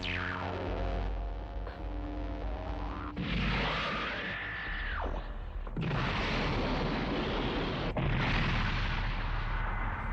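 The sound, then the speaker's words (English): Heavy sci-fi energy-weapon blasts as a Cyclone Pulse Rifle fires a massive round into a mech in a tabletop game: a descending whine opens into a few loud, sustained roaring bursts, one carrying a steady high tone. “the Cyclone Pulse Rifle fires up.”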